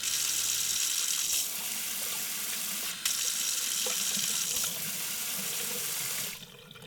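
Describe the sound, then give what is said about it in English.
Hands are washed under a running kitchen tap: a steady, loud rush of water runs alone for about six seconds, with a brief break near the middle, then stops abruptly near the end. “I'm going to wash my hands and we'll come on to the next one.”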